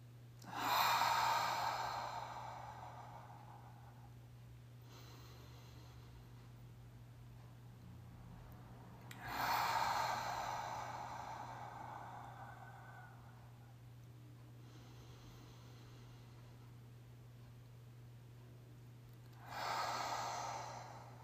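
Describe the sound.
Slow deep breaths taken during a guided reflection: three loud, breathy exhales spaced several seconds apart, each fading gradually, with softer inhales between them, all over a steady low hum.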